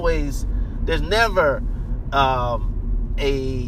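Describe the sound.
Driving in a car produces a steady low rumble of the running vehicle, a constant bed of road and engine noise beneath continuous talk.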